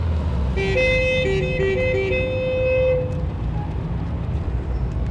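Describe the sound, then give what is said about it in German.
Vehicles in a traffic jam on a Frankfurt street give a constant low rumble. Car horns toot in overlapping tones for a few seconds, then only the rumble of traffic remains. “eine Verkehrsstauung mehr in Frankfurt. Ein absolut alltäglicher Vorgang bei Ihnen, nicht?”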